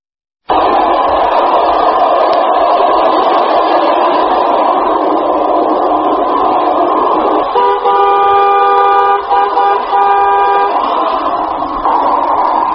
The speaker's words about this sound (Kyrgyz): Ушумалда Ош Бишкек Гуна жолу менен автоунаалар күндүр-түндүр кым каттоодо.